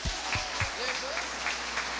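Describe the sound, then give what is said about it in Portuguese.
Applause from an audience at a gathering, honoring a woman over ninety, a faint, steady patter of many hands clapping that holds evenly for a couple of seconds. “Merece uma salva de palmas.”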